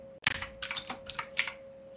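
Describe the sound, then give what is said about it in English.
Typing on a computer keyboard during a tabletop role-playing game session: a quick burst of soft, rapid key clicks lasting about a second and a half, fairly quiet, over a faint steady hum. “I'm typing on the wrong keyboard.”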